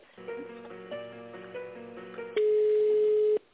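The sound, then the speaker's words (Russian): A telephone line during a call transfer plays a short electronic melody of stepped tones, then a single sustained steady beep, louder and unbroken for about a second, with no talk. “Так, минутку, сейчас переведу на тендерного специалиста.”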